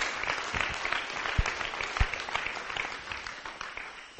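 A church audience applauds to welcome first-time visitors, with steady, dense clapping from many hands that holds at an even level throughout.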